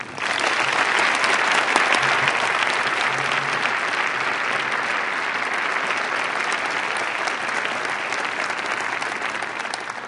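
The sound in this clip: Warm audience applause welcomes a university dean to the podium, a dense, even wash of clapping that holds steady for about ten seconds.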